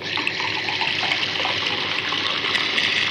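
Water poured into a glass to top up a drink mixed with lemon and a sharp ingredient, a loud, steady gushing stream that runs unbroken for about three seconds.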